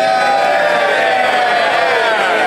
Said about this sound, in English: He was a sleeping MP, by the way. He's in the news for being asleep in the chamber. That's why they're cheering.